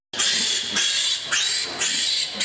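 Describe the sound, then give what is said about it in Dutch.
Piglets squeal as their tails are burned off without anaesthesia, a loud, shrill, continuous run of screams that surges in several distinct waves with no pause between them. “Om staartbijten te voorkomen, worden de staartjes onverdoofd afgebrand. Dat klinkt zo.”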